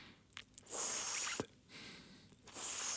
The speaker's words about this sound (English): So you have to curl your tongue and breathe in through it. And then out through your nose.